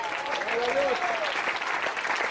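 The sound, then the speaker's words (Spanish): A church audience applauds during a Spanish-language service. The clapping is steady and fairly soft, with a voice speaking over it in the first part. “¿Cuántos alaban al Señor en esta hora? Para el Señor ese aplauso,”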